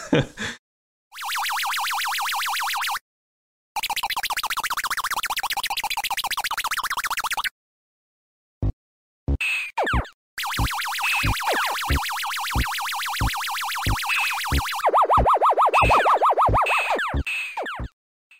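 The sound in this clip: Electronic sound effects from the 1979 Superman video game: long blocks of harsh buzzing tone separated by silent gaps, then a run of short sharp blips and clicks. Falling chirps and a lower buzzing drone follow near the end.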